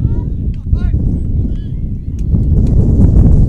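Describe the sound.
Gusty wind buffets the microphone during a regional baseball game, a loud, steady low roar with faint traces of voices showing through.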